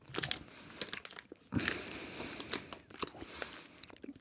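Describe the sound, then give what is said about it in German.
Gummy bears being chewed straight from a crinkling bag, with wet bites and crunchy chewing mixed with bursts of plastic rustling, close and fairly quiet. “Aber es schmeckt, oh, es riecht ja auch so. Ich habe lange keine Gummibärchen mehr gegessen.”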